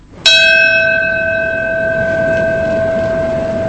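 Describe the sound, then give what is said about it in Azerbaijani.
A single loud bell strike marks the 8:46 a.m. moment of remembrance for the September 11 attacks in America. A bright struck tone gives way to a long, steady humming ring that fades only slightly. “Zəng səsi yerli vaxtda səhər saat 8:46-da 11 sentyabr hadisələrinin baş verdiyi vaxtda eşidildi.”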